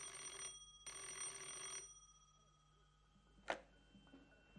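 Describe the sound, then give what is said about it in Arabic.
A telephone rings in two bright electronic bursts with a short gap between them, then falls quiet before a single brief sharp sound. “سيب التليفون، انا اللي هرد.”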